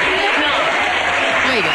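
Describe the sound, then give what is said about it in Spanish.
A crowd of adults applauds. The dense clapping is steady and loud and continues under talking for the whole clip. “Y el aplauso, vale, el aplauso, y el aplauso de un montón de adultos.”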